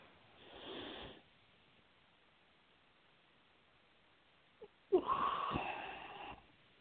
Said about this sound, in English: Take a nice deep, deep breath.